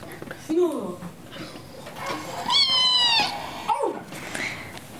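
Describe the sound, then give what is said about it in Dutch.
A neighbour's cat meows a few times, wavering, drawn-out cries with one long, high, strained yowl in the middle. “Dat is de kat van de buren. Die verveelt zich ook.”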